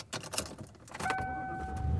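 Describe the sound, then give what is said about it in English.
A car driving on the road, heard from inside: a few irregular knocks and rustles first, then a steady road hum with a thin, constant whine running beneath it. “And I am driving home. It's a little sketchy.”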